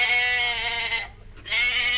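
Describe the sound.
A sheep bleats in two long, loud, nasal and steady-pitched cries separated by a brief pause, the second still sounding at the end, with no voices.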